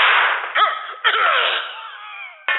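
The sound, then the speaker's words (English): A camera with its battery put in wrong gives off gunshot-like bangs: three sharp, loud cracks with short ringing tails, the first two close together and the third after a longer pause. “When I put the battery in wrong, my camera sounds like a gun.”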